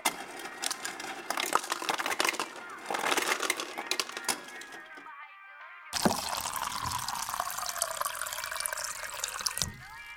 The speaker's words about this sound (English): After filling up my cup